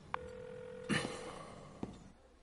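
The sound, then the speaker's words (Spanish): A mobile phone call being placed: a steady electronic tone holds for about a second, with a few sharp clicks around it, all fairly faint against a quiet background. “Coge el móvil del falso techo. Mira la pantalla. 14 mensajes. Dios. Llama.”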